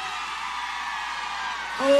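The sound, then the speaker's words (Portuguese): A crowd of women screams at a show in Goiânia, a dense, steady, high-pitched wash of shrieking that holds for about two seconds and swells louder near the end. “Olha o Goiânia. Cadê o grito das mulheres apaixonadas?”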